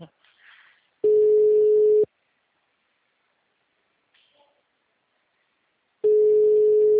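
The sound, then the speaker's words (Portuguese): Ringback tone of a phone call going unanswered: two steady, low-pitched tone bursts, each about one second long, separated by several seconds of near-silence with only a faint brief noise in between. “Que eu tô tentando ligar pra ele de outro número, sabe? Mas ele não atende.”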